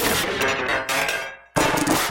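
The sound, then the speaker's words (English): Hi-hat-like synthesized percussion from a synth percussion module with its attack turned down, heard as bright, hissy noise bursts that run on with slight pulsing, fade away, then snap back loudly after a brief gap. “It's another percussion module. I have turned the attack kind of down so it doesn't have that noise that is introduced in the beginning. That makes it sound kind of like a hi-hat.”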